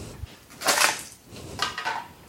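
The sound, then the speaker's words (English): Ice cubes clatter into a jar of espresso and brown sugar syrup for an iced latte, making two short clinking bursts that are fairly faint and separated by a brief pause. “And then we're going to add some ice to this.”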